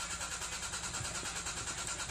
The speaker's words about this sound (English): your car won't start.